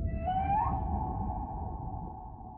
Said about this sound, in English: you hear a whale sound like this